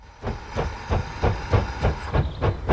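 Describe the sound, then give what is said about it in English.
Steam train pulling into a station, its chuffs repeating in a steady rhythm with bursts of hissing steam that grow louder after a quiet opening. “A train pulls into the station. Stella and Joe stand close together on the platform.”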